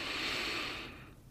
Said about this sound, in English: I want you to take one more deep breath in